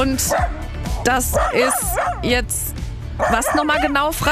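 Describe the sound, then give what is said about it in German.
A dog near a bicycle trailer yips, whimpers and barks in a string of high, bending cries, woven under and between a man and woman talking. “Das ist mein Hund Cooper. Ich glaube, er sagt damit, ich mag diesen Fahrradanhänger nicht so wirklich.”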